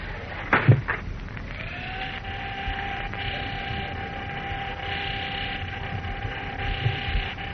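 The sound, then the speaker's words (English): An elevator arrives in a building lobby. A couple of soft clicks give way to a low electric hum with a steady, constant-pitched whine. “Ah, here we are. Here comes the elevator. A lobby, please.”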